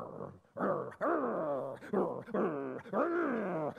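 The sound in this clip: A person imitates a coyote with several wavering, whining yips and howls, each cry sliding downward in pitch, quiet and delivered on its own without speech.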